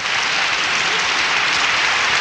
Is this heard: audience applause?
yes